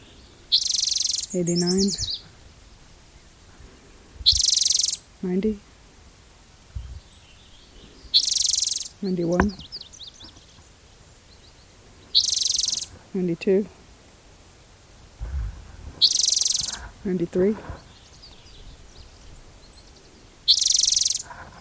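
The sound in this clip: Song sparrow singing: several short, bright, trilled songs repeat at a steady pace, with a man's voice counting quietly between them.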